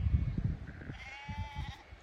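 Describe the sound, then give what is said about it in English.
A sheep gives one wavering, nasal bleat. It sounds faint over low, thumping rumbles. “You can probably hear sheep.”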